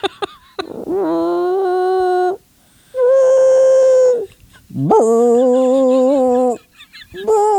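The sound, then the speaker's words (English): A human voice imitates a trumpet played badly, giving three long, nasal, honking held notes with wobbly pitch and short gaps between them, then the start of a fourth. “we would hear him playing the trumpet and it'd be like,”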